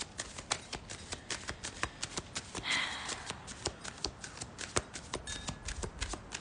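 Tarot cards shuffled before a card is pulled: many soft, quick papery flicks and snaps in a fairly steady rhythm, faint and without talk.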